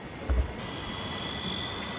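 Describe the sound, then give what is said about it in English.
A delivery drone flying: a steady whirring hum with a thin high-pitched whine held throughout and a brief low thump near the start. “These are effectively drones, but there's no reason that they can't be used as delivery vehicles.”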